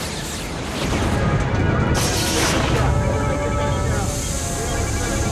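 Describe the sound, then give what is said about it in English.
Loud, sustained sci-fi crash and crackling roar as a plasma burst surges along a tachyon beam into a starship's main power system, blowing out relays, with a sharp blast about a second in. “It sent a plasma burst along the tachyon beam into our main power system. We've got EPS relays burnt out all over the ship.”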